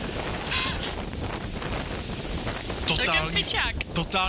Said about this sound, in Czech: Totální fujavice.